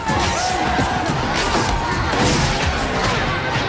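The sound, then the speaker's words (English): Crashes and thuds as a man is shoved into a jukebox during a bar fight, over a loud, dense crowd of shouting, brawling people that continues throughout. “They climb onto the bar. A man is shoved into the jukebox, which shifts songs.”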